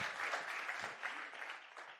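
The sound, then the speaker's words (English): A round of applause from an audience for people who have come up to the front, dense and even clapping that holds steady and tails off slightly at the end. “Let's give these guys a round of applause for coming up here.”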